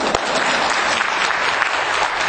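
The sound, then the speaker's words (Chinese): A group applauds performers after they run through a practiced dance routine with stepping and pointing moves. The clapping is loud, dense and even, holding steady without pause from start to finish. “给他们鼓掌一下。”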